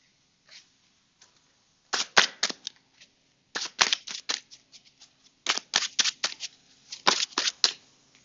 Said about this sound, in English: First card we pulled was Temperance